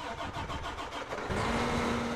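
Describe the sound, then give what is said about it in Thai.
A farm tractor engine, the tractor fitted with a 48-row seed drill: a rough, pulsing chug that settles into a steady, slightly louder running drone with a low hum, with no talk. “รถแทรกเตอร์คันนี้นะคะติดเครื่องหว่านเมล็ดที่สามารถลงเมล็ดได้รอบละ48แถว”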